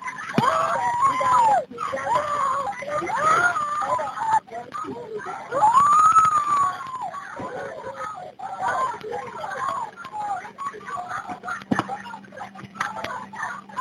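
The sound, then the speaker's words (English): Screaming in the background of an emergency call about a shooting in Miami, Florida: distressed voices rise and fall over thin phone-line audio, mixed with talk throughout. “You can hear a lot of screaming in the background.”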